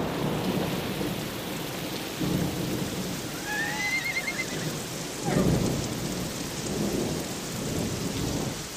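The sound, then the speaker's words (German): Steady rain on a rainy night, a dense, continuous hiss that holds throughout, with a low rumble of thunder swelling briefly partway through. “Es ist eine regnerische Nacht.”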